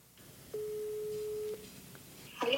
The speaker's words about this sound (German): meinst du, wir könnten die mal versuchen anzurufen? Könnten wir eigentlich versuchen? Wählen wir mal.